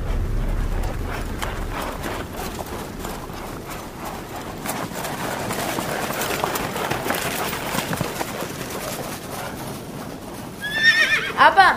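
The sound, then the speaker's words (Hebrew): A horse whinnies loudly near the end, a high, wavering neigh. Before it, a long stretch of dense, rough noise runs under what sounds like hooves clip-clopping. “עליתי לסוס.”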